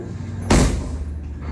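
A car trunk lid slams shut once with a single sharp, loud thud, against low steady background noise.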